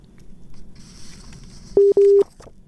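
Telephone busy tone after a call line was cut: two steady mid-pitched beeps, a short one then a longer one, sound loud near the end over faint background noise.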